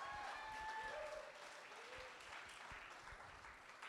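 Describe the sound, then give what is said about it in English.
Congregation applause during a church service: steady, dense clapping from many hands that holds at a faint, even level for the whole stretch before easing slightly near the end. “Come on! Come on, hallelujah, give him a clap.”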